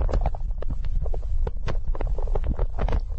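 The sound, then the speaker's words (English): A person's stomach rumbles while they wait for a film to start at Christmas, a continuous low gurgling drone scattered with small squeaks, pops and clicks. “So this is the sound of your stomach rumbling while you were waiting for a film to start at Christmas.”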